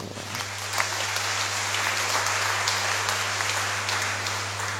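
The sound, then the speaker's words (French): An audience gives an ovation as their community receives a new adoration chapel, with dense, steady applause that holds at an even level throughout and has no talk over it. “Nous ovationnons.”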